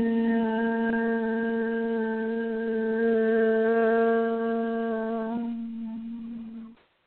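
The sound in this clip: A single voice sustains a steady, low meditative chant of the word Hu for about seven seconds, rich in overtones, then trails off and fades out.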